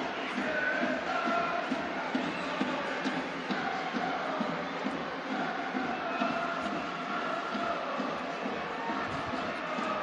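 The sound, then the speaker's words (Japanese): Supporters applauding a team after a lost match: a dense, steady wash of clapping and crowd noise that holds at an even loudness throughout, with no clear breaks. “サポーターも拍手で迎えているのがその一つ”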